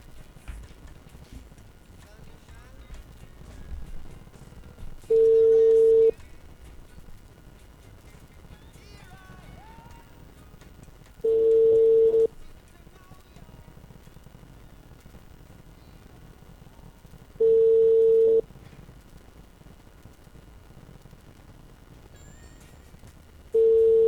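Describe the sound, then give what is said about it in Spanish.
Telephone tones from a call being placed: four even, steady mid-pitched beeps, each about a second long and spaced roughly six seconds apart, the last cut off, with faint talk in the gaps. “Una llamada va. Vamos a ver si conexión total.”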